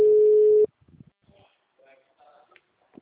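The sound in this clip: A telephone tone after a dropped call: one steady, loud, mid-pitched tone that cuts off abruptly after under a second, followed by quieter talking.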